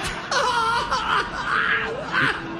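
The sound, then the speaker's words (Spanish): A woman cries in long, wavering wails broken by sobbing bursts. The pitch rises and falls as she cries, loud and on its own. “Y llora bien, tío. Consuélala.”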